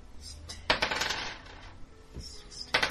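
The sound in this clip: Dice clatter as three six-sided dice are rolled during a tabletop role-playing game session. A few quiet rattling bursts come in short clusters, each followed by a brief tumbling decay.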